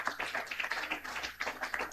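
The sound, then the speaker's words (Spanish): Applause for a church choir at a Catholic church in Colonia Legual: a dense, steady patter of many hands clapping for two seconds, with brief dips in intensity and no voices. “También brindemos los fuertes aplausos ahí a nuestros hermanos del coro Cantar de los”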